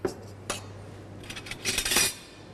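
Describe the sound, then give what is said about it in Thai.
A spoon clinks against a bowl while three spoonfuls of fish sauce go into a Thai yam salad: a few light metallic taps, then a brief cluster of scraping clinks. “เริ่มจากนะครับน้ำปลานะครับวันนี้เราใส่เรายำค่อนข้างเยอะเราจะใส่3ช้อนนะครับ”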